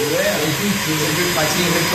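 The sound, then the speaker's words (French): A small Italian-style vacuum cleaner gives off a steady whirring motor hum that holds an even level from start to finish, while voices talk over it. “Il y a même un petit aspirateur à”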